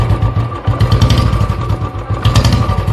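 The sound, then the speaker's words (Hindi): A Bullet motorcycle engine thumps at a steady idle, a loud, low, rapid and even beat with a faint hum above it and no talk. “Bullet का engine इंसान के मुंह से निकली हुई सुरली आवाज या बुलेट से निकली हुई धक धक”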